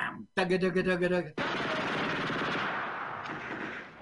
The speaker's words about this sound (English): Cease fire before you kill each other. Cease fire. I've never seen so much action in Central Park.